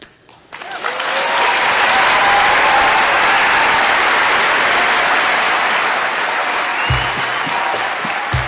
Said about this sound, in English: Carol Sepulu received a standing ovation from the audience in Anchorage that night. 1,200 people literally jumped to their feet.